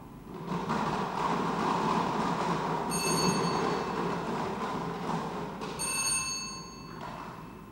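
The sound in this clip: A lottery number drum spins at a numbers draw, a continuous loud rolling rumble with two bright, bell-like ringing tones rising out of it partway through.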